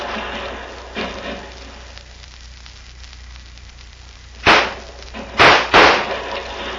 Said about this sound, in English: One of those bullets came too close for comfort. Mother mia, now what to do? Bullets from all sides, and Senor Bucktooth and I are right in the middle.